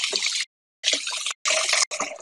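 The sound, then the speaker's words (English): Tap water runs while hands are washed after handling salmon packaging, a bright hissing rush in four bursts broken by short silent gaps. “You're done with your packaging of salmon or whatever it came in. You wash your hands off nicely.”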